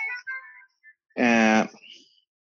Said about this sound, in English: my phone was ringing, sorry.